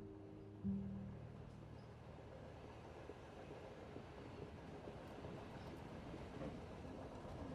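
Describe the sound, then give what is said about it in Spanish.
A moving train makes a steady, quiet rumble and rattle that runs unbroken throughout, with a faint low hum near the start. “El tren está en movimiento.”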